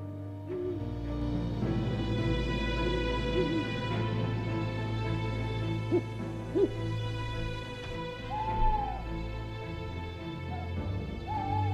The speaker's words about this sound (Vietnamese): Đâu đó ở ngoài kia có tiếng con cú mèo cứ rúc lên từng hồi.